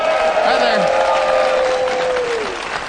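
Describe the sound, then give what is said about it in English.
A studio audience applauds in a dense, loud, continuous wash of clapping that stays steady before easing slightly at the end, while a voice carries over the top. “This is our studio audience. We affectionately call them the Wild Bunch.”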